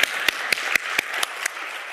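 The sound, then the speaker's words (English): An audience applauding at a service as a choir arrives: steady crowd clapping with regular sharp beats about four per second, moderately loud, with no voices. “But actually, as they come up, let's give them a standing ovation as they arrive here today.”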